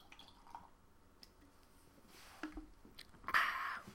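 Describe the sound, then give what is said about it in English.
Someone takes a drink with faint, wet sipping and swallowing sounds, ending in a louder gulp. “I'm going to take a drink because this is going to be a long one.”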